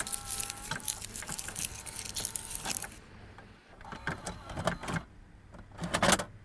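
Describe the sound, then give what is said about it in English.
A tape machine jams and chews up a tape with irregular mechanical clattering, rattling and scraping. Dense bursts fill the first half, a quieter stretch follows, then more scattered clunks and rattles. “Damn thing keeps eating all the tapes.”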